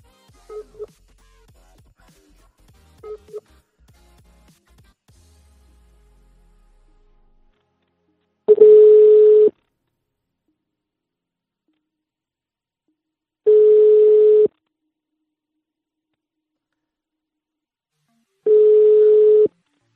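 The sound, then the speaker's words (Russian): A telephone call's ringback tone: a few faint, short beeps of dialing, then three long, steady tones of the same pitch, evenly spaced with several seconds of silence between them. “И сейчас я еще раз наберу этой красавице. В кавычках. Набираю.”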